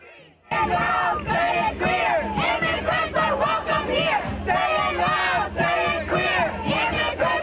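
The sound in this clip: Protesters at a DACA demonstration chant together, the loud crowd bursting in after a short quiet start and then driving on with repeated rhythmic shouted phrases from many voices.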